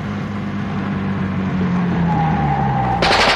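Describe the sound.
A gunshot is fired from a car. A steady engine drone runs throughout, and near the end a sudden loud, harsh burst of noise cuts in.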